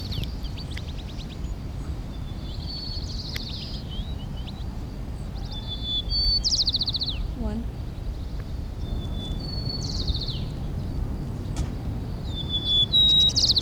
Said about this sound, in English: White crown sparrow, okay.